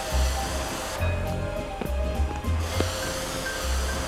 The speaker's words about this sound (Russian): Автомойщик перед въездом облил машину водой, и она направилась в бокс.